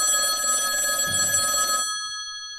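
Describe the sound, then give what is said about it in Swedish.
A telephone ringing on an outgoing call: a steady, bright, buzzing ring tone holds for nearly two seconds, then cuts off and fades into silence. “Ska vi ringa henne och kolla hur läget är?”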